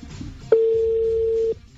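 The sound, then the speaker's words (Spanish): A single telephone keypad tone sounds as the digit four is dialed on a call: one steady, mid-pitched beep lasting about a second, clean and fairly loud over a faint low background hum. “Estamos marcando el primer número que nos dio Alvarito”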